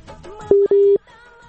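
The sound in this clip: A phone line tone after a dropped call: two steady, mid-pitched electronic beeps in quick succession, the second longer than the first, set apart from the quieter surrounding sound.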